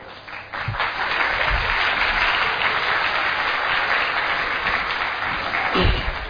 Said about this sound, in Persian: فقط برای چی دست دادین من متوجه نشد.